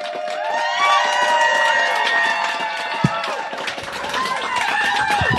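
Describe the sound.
A live audience on a cruise ship cheers, claps and shouts in a thick, continuous roar of voices and hands, with one sharp crack near the middle.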